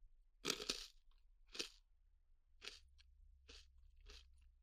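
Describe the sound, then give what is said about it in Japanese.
Crunchy senbei rice crackers, served as a tea snack, are chewed in five loud, crisp crunches at an unhurried, even pace, with no talking. “ああ、今度はお茶菓子まで、 おせんべい美味しいよ。”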